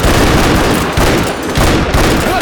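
Rapid pistol gunfire from two revolvers, a self-cocking revolver and a hideout Colt, fired in a fast volley: a loud, dense barrage of cracks that blur into a continuous roar with no pauses.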